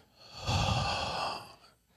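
A deep breath drawn in and blown out, mostly one long, forceful breathy exhale that swells, holds for about a second, then fades, with no talk over it.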